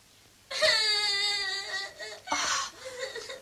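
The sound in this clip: A baby cries loudly in a long, wavering wail, falls briefly quiet, then lets out a shorter second cry that trails off into softer whimpering.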